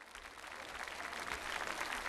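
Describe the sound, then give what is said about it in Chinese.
Fairly faint applause from an audience at a Chinese film event honoring an actress: dense, continuous clapping that holds at an even level throughout. “她值得所有的掌声。”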